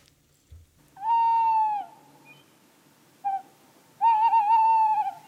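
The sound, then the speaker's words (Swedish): A tawny owl hoots: a long, wavering hoot, then a brief short note, then a second long, quavering hoot, clear and alone against quiet surroundings. “Ja, det var ljudet av en kattuggla.”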